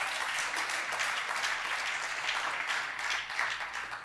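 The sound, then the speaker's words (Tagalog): Congregation applauding in church during a service, a dense, steady wash of many hands clapping that holds at an even level for the whole stretch without a break. “Palakpakan mo si Lord.”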